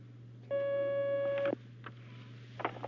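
Telephone line tone sounds as a caller's line connects: a single steady tone of about one second, followed by a few faint clicks.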